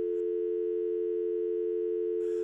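A telephone tone sounds after the caller has hung up: one steady, unbroken low-pitched hum held at the same level throughout, with brief noisy bursts at the very start and end.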